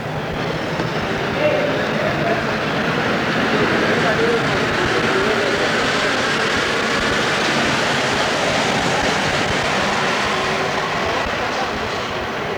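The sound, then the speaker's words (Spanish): A Mexico City underground metro line rumbles with a loud, steady, continuous roar as people pass by, with voices faint beneath it. “más gente pasando, viniendo y viajando en estas líneas subterráneas que conectan a la Ciudad de México.”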